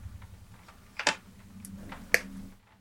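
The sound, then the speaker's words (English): Wire cutters trim the ends of freshly soldered hookup wires on a sensor board: a few crisp, sharp snips spaced about a second apart over a faint low background. “And just solder these up, just going to trim the ends off.”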